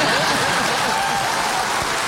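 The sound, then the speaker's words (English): Studio audience of a television talk show applauding a Welsh guest's accent: a steady, dense patter of many hands with no separate claps standing out, moderately loud and unbroken for about two seconds. “Well, actually, you can clap.”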